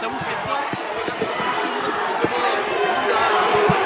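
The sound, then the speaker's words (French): A crowd of fans welcomes arriving players with a steady murmur of chatter and scattered thumps, while a voice speaks over it. “Vous voyez l'accueil qu'il y a avec tous les fans, on est content d'être là.”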